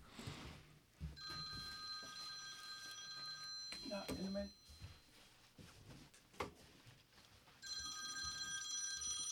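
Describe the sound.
A telephone rings in two long bursts of steady, bright electronic tone, with a pause between them and talk going on around the ringing.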